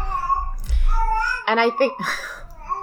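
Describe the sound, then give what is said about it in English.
A baby boy babbling in high, sing-song bursts, overlapping with an adult talking over him. “my son is he's babbling quite a bit, so if you hear him in the background, you're fine.”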